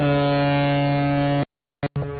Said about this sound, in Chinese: 长江滔滔奔流不息，一艘艘满载新麦的货轮鸣笛起航，